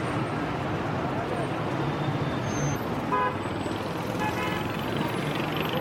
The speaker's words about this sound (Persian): فردا صبح مالک در حال رانندگی توی یکی از خیابون‌های تهرانه.